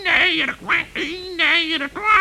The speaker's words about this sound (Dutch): Ik had het ook wel kunnen denken, want je kwekte erg duidelijk.